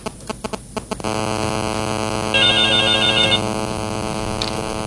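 A telephone ringing for an incoming call: a few short pulsing bursts, then a sustained electronic warbling ring that gets louder in the middle before settling.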